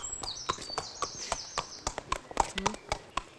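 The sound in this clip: A racehorse walks at an unhurried pace, its hooves clip-clopping in a steady, even rhythm of many sharp, fairly quiet beats.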